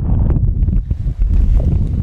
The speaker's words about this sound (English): I'm standing at a cow gate on the Adams Ranch, and they picked a really blustery day to do this. A cold front just came through.